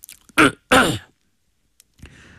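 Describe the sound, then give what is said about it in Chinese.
A man clears his throat in two loud, gritty rasps close together, followed by silence and then the start of speech. “齐共这才清了清嗓子。”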